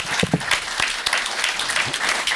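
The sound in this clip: Brief clapping from a small group during a casual chat about video games, a lively, steady patter of hands with a voice briefly heard near the start.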